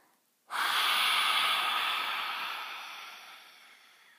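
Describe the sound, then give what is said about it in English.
A forceful yoga lion's breath exhale with the tongue stuck out: one long, breathy hiss that starts abruptly and slowly fades away, heard alone. “lion's breath, which is when you take a big inhale, and then when you exhale, you stick out your tongue, and you make a big breath, and big exhale breath. It sounds like this.”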